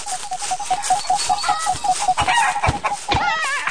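Chicken clucking sound effects from a video game, a rapid run of many short, bright clucks in a steady rhythm, joined by other warbling electronic game sounds.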